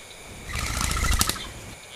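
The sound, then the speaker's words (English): Birds flapping their wings: a burst of rapid, fluttering wingbeats that swells and then fades over about a second, moderately loud, with no voices. “The birds, on the other hand, practiced their flying and flapping of the wings,”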